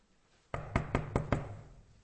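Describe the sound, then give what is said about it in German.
Five quick knocks on a door come in an even rhythm. They are fairly faint, with nothing else heard around them. “Da klopft es an.”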